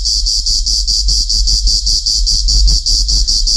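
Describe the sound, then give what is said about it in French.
Cicadas chirping in a loud, high, continuous buzz broken into rapid regular pulses, heard alone over a low steady rumble. “il me semble que c'était le bruit des cigales.”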